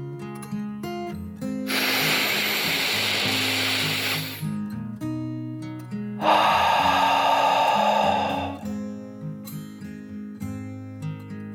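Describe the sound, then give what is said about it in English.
A slow, deep breath in during a calming guided relaxation, then a pause and a long, airy breath out, both heard over soft, gentle background music. “She took one final deep dragon breath in and out.”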